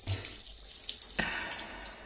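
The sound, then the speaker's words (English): Water pours steadily down in a shower, a continuous, even hiss with a small splash-like tick near the middle and no voices. “Ah, and what a sight it is. The water pouring down your body.”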